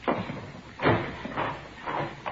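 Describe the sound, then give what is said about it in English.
A door is opened with a few muffled knocks and scraping thuds spaced out at uneven intervals, fairly quiet and with no talk over them. “Here, I'll get the door.”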